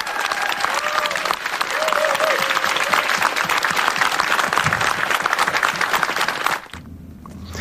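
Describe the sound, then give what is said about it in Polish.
Dense applause from a crowd at an election-night political gathering, a steady roar of clapping that holds for about six and a half seconds before dropping abruptly to a quieter murmur, with faint voices mixed in. “Wielkie brawa dla was wszystkich!”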